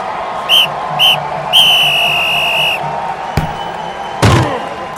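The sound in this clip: A referee's whistle blows for a football opening kickoff: two short shrill blasts, then a longer sustained one, followed a little later by a couple of sharp thuds.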